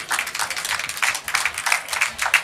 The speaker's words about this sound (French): Merci, Lucia Rey. Bienvenue. Merci de l'applaudir.